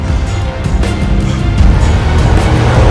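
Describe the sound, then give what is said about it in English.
Trucks careen down a road and slam into each other during a chase: a dense, continuous, loud roar of engines and rumbling road noise, with no talking. “The trucks careen down the road, slamming into each other.”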